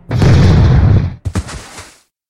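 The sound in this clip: A bolter pistol fires a heavy, booming blast that roars for about a second, followed by two sharp pops that quickly trail off into silence.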